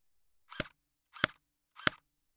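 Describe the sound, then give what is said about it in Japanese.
An airsoft gun fires at a person: three sharp, evenly spaced pops with silence between them. “私もエアガン人に向けて撃つの初めてだからさ。”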